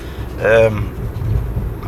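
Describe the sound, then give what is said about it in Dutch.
A car driving, with a low, steady engine and road rumble running through the whole stretch and a brief voice near the start. “we rijden nu over Helstedt en we gaan over kruising”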